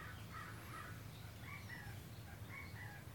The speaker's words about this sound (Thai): พวกนกกาเขาร้องกัน